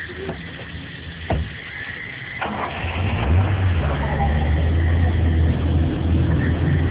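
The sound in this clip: Car engine running as the car turns around: a low rumble that builds after a quieter start, then holds as a steady, loud drone.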